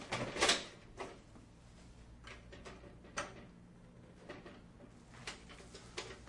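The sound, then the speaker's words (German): Cash register drawer being shut during play with a coin: a faint clatter, then a few lighter clicks and knocks spaced apart in a quiet room. “Du musst die Kasse wieder zumachen, dann kannst du das da reinschmeißen.”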